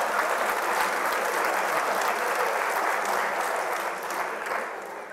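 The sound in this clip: Audience applause at a Lithuanian live talk event. A steady wash of crowd clapping stays even for most of the stretch, then tapers slightly toward the end, with no speech over it.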